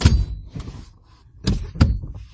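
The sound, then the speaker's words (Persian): A driver adjusts a car seat before starting the car, producing dull mechanical clunks and thumps. A few soft knocks are followed by two sharper thuds near the end. “خب صندلی رو درست کنم.”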